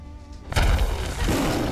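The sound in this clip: A single heavy thump as a fist punches a wall, landing abruptly and followed by a loud, sustained wash of rumbling noise.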